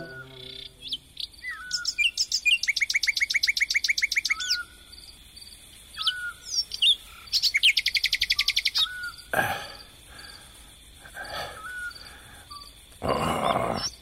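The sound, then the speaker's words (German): A nightingale sings in rapid, rhythmic trills, repeating two long phrases of fast, even high notes with shorter chirps and calls between them. A few harsh, broad bursts of noise break in near the end. “Hör sie dir an, Jerome. Diese verdammte Nachtigall. Ihr Gesang ist so süß, sagt Mama.”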